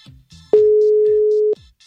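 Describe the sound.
A WhatsApp voice call ringing tone, a single steady mid-pitched tone lasting about one second, with faint brief sounds before and after it.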